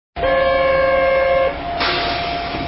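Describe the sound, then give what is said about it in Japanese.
A new Plarail toy train runs with a sudden steady electric whine, a sustained tone lasting about a second and a half, then a softer hiss, with no talk. “これ、プラレールの新車が走る。”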